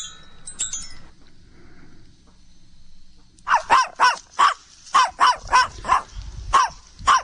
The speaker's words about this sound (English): That's a little dog with a big name.